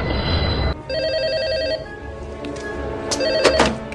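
A telephone rings with a loud, trilling electronic bell in one burst lasting about a second, set between duller noises before it and a few sharp clicks and knocks after it.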